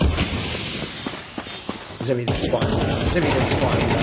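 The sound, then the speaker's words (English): Gunfire from a video game shootout: a few sharp shots and short rapid bursts cut through a dense, noisy wash of game sound. “Wish that guy would just not shoot at me while I aim at him. See, when I actually shoot, they shoot back.”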